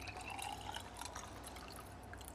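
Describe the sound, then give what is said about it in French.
Water poured into a pot of leftover pesto rosso to thin it into a sauce, a faint continuous trickling and splashing with no voices over it. “on met un peu d'eau”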